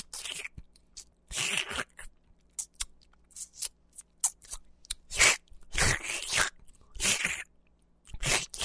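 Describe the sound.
Someone chews a smelly steamed manju bun with many loud, wet crunching bites and mouth sounds. The bites come in irregular bursts with short pauses between them.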